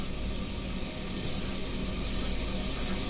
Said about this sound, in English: And to that then, we're just going to add the chopped onions. Get those in.